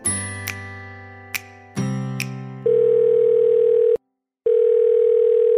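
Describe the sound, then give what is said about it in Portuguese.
A call being placed by telephone: a few bright chiming notes, then a loud, steady ringing tone that holds for over a second. The tone stops briefly and starts again. “vamos ligar para Elcio Coronato e ouvir que histórias ele tem para contar pra gente.”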